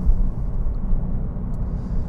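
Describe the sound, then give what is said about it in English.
A car is driving, heard as a low, steady road rumble: a continuous muffled drone with no talk over it. “Ladies and gentlemen, we are driving.”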